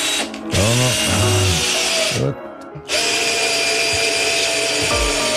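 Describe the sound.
A power tool, likely a drill, whines steadily while screwing and cutting. It is loud and continuous, stops briefly near the middle, then starts up again and runs to the end.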